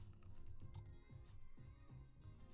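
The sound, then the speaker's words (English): Rapid keystrokes on a computer keyboard: many sharp clicks in an irregular rhythm over a low, steady droning background, with no voices. “let me go ahead and type this right here, because I want you to see this”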